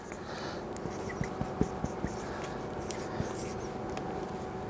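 Marker writing on a dry erase board while a workout plan is drawn up: a few faint, short squeaky strokes scattered over a steady low background hum.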